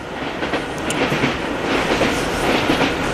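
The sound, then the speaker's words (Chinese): A train runs fast on rails, giving a loud, steady rumble with a continuous rattle of wheels and carriages throughout, with no voices. “火车开得真快啊”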